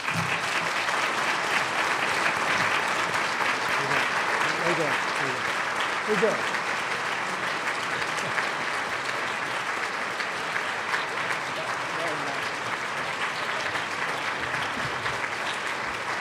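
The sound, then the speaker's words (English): Audience applause welcomes the moderator onstage at a New York Public Library evening discussion: steady, dense clapping from a crowd that holds at an even level for the whole stretch without fading. “Ladies and gentlemen, please give a huge welcome to Robert Silvers.”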